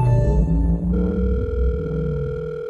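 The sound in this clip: A steady telephone dial tone hums on continuously after a short stretch of other tones at the start, heard alone without any voices.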